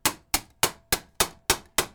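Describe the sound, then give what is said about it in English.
A rawhide mallet strikes a trumpet bell held on a bell mandrel in a vise: seven evenly spaced, solid thuds, each with a short bright ringing tail that fades before the next blow. “So I'm going to use the a specific bell mandrel on the vise and hit with the rawhide mallet.”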